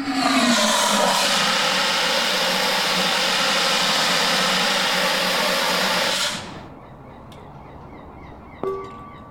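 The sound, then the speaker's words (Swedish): A carbon dioxide fire extinguisher sprays outdoors over asphalt as a loud, steady roaring hiss for about six seconds. It cuts off abruptly, and a single metallic clank follows. “Nej, det blir koldioxid så det åker upp i luften med en gång. Okej. Får jag spruta lite till? Ja, du kan ta med den. Spruta på.”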